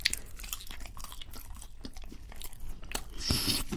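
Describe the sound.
Crunchy bites and chewing as someone eats a Burger King fry dipped in a milkshake, a quiet run of many small crisp crackles with a louder, brighter crunch near the end.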